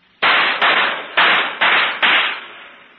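Five handgun shots fired at target practice, loud sharp cracks spaced about half a second apart, each one ringing on until the next shot cuts in, with no voices.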